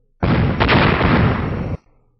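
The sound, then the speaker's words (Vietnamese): Loud explosion as a sheet of golden light strikes a huge stone formation and splits its boulders: one dense, roaring burst that holds steady for about a second and a half, then cuts off abruptly. “Thanh âm nổ vang lớn, hoàng mang chói mắt chợt hiện ở phía dưới”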